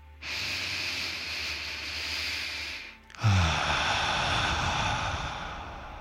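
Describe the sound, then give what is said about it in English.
A deep breath during a guided breathing exercise: a long, airy inhale lasting over two seconds, a brief pause, then a stronger, sustained exhale. “So take a deep breath.”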